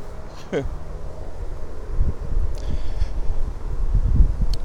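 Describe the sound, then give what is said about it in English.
Strong outdoor wind buffets the microphone in low, rumbling gusts that swell and ease unevenly and grow heavier toward the end. “Wow, big wind. Big wind, can't block it.”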